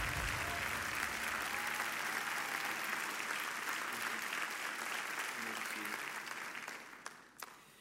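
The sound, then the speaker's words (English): A church audience stands and applauds in welcome for a guest pastor, a long, even wash of clapping at low volume that thins out and tapers off in the last moments. “Let's all stand up on our feet right now. Let's put our hands together and give Pastor Brett Fuller a huge Church of the King welcome.”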